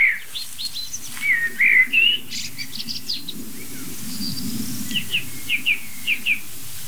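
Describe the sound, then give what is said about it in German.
A nervous chaffinch gives a series of short, sharp, high alarm notes, spaced closely near the end after a few earlier chirps, over a soft, steady low background rumble. “Meist sieht man so in der Nähe dieser Pinkrufe entweder noch andere kleine Vögel hektisch hin und her fliegen, die einfach checken wollen, was macht Buchfink so nervös, was ist los?”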